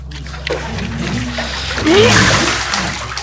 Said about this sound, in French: Je glisse instantanément, provoquant cette vague que tout surfeur aimerait se taper une fois.